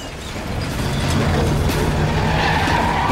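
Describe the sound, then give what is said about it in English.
An ambulance speeds through a car park with tires skidding and the engine roaring. The noise swells during the first second, then holds as a harsh, continuous rumble with a high squeal. “speeds through the car park, leaving a trail of destruction behind it. They hit a speed bump and the vehicle lifts off the ground, smashing into a ceiling light.”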